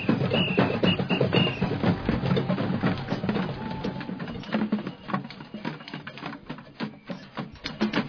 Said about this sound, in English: Say for our listeners what it is that you're playing here this afternoon. Why, I'm playing a bucket that used to contain 12 kilograms of olives.